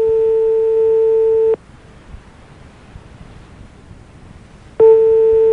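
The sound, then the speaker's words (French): A telephone busy signal sounds while a call is being put through to the police or gendarmerie. A loud, steady tone with harmonics plays for about a second and a half, cuts to low background hiss for several seconds, then starts again. “Vous êtes seul chez vous, ça sonne ? Ça semble occupé chez vous ?”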